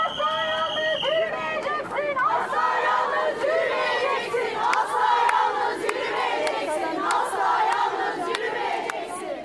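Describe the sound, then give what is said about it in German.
Several hundred women chant in unison at a protest against femicides at the harbour of Beşiktaş, Istanbul, their loud, rhythmic shouting rising and falling over a background of crowd noise. “Du wirst niemals allein gehen. Und wir werden die Frauenmorde stoppen, rufen die etwa 500 bis 600 Frauen, die sich am Hafen des Stadtteils Beşiktaş versammelt haben.”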